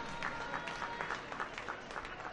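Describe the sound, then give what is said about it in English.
Faint crowd noise at a baseball stadium during a full-count at-bat, a low murmur broken by scattered claps and short bursts of shouting at irregular intervals. “The crowd gets into it.”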